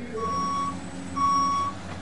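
Reversing beeps from construction equipment: two long, steady, high-pitched electronic tones with a short gap between them, over a low engine rumble.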